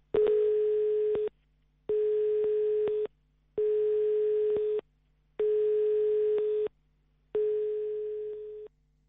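Telephone line tone after dialing a number: five long, steady mid-pitched beeps, each a little over a second, separated by short silent gaps, with no voices.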